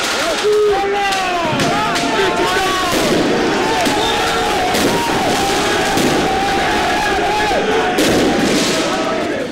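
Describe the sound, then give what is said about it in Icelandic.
Fireworks and a dense crowd during night street celebrations on the Champs-Élysées in Paris after a football title win, with loud cheering, shouting and whistling running throughout and bangs mixed into the steady roar. “Flugeldum var skotið á loft”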